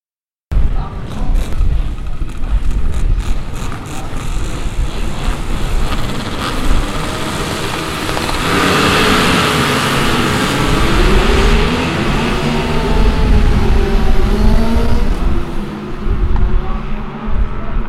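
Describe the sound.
A large group of motorcycles, many of them Harley-Davidsons, arrive at a memorial ride event at the National Memorial Arboretum, making a loud, dense, continuous rumble of many engines that roars and revs throughout.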